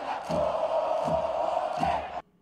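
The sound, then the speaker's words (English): A stadium crowd of opposing fans chants insults at Maradona, a rhythmic mass of voices with three accented beats, quiet overall, then cutting off abruptly near the end. “That's the whole audience saying that Maradona sucks dick.”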